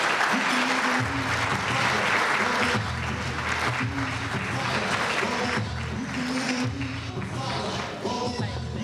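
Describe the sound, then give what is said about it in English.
An audience applauds as a speaker is welcomed to the stage at an evening event. Dense, steady clapping fills the whole stretch, with a low tonal bed running beneath it. “So put your hands together as we welcome Dr. Mary Canty Merrill to the stage.”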